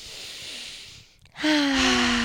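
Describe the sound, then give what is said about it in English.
A deep breath drawn in as a long, airy rush of about a second, followed by a brief pause and then a louder, sustained breathy sound with a steady low tone. “Take a deep breath.”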